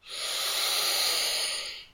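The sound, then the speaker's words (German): One slow, deep breath is drawn in through the nose during a guided breathing exercise, a steady airy hiss that swells and holds for about two seconds before fading, with no talk. “Noch einmal durch die Nase einatmen,”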